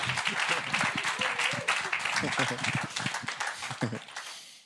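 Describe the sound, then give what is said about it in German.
Audience applause at an evening gathering: a dense, steady patter of many hands clapping holds for several seconds, then thins out and fades at the end, with voices mixed into the crowd noise. “geben wir Tobi mal einen Applaus”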